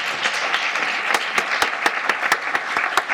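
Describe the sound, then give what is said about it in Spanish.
Applause from a church audience after a testimony during a sermon. A steady bed of clapping runs throughout, punctuated by many sharp, prominent individual claps in a loose rhythm, with no voices heard. “Excelente, un aplauso a Dios.”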